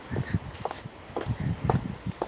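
Footsteps of a person walking outdoors under an evening sky: a steady series of soft, low thuds spaced at an even walking pace throughout.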